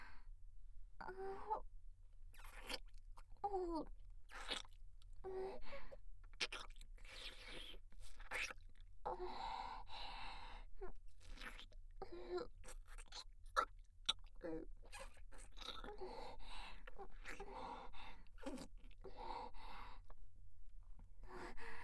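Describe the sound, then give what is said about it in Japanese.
Wet tongue-licking mouth sounds repeat in many soft, irregular bursts, with short pauses between them, over a steady low hum. “私の舌で 舐め上げさせていただきます”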